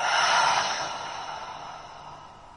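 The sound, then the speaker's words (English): A deep breath out through the mouth during a mindfulness breathing exercise, one long airy exhale that starts loud and slowly fades away. “Taking a deep breath in through the nose and a deep exhale through the mouth.”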